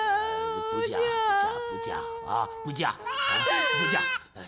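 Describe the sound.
Goats bleat on a farm in a string of wavering, quavering cries that rise and fall over several seconds, loud and almost continuous with short breaks.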